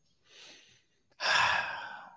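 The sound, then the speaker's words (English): A deep breath drawn in on a guided breathing cue: a soft short inhale, a pause, then a long, louder airy intake. “just take a deep breath in. Come on, breathe in with me.”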